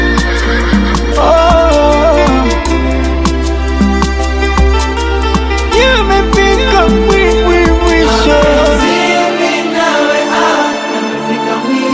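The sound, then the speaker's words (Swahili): Horse neighing woven into a song, wavering whinny-like calls rising over steady music with bass and beat, blended into the instrumental mix rather than standing alone. “Farasi.”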